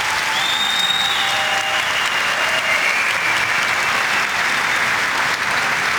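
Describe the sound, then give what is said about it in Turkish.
Strong audience applause at a ceremony with the Turkish President honoring a Palestinian guest: dense, steady clapping that holds at an even, loud level for the full six seconds. “Filistinli kardeşimiz şu anda kuvvetli bir alkış rica ediyoruz.”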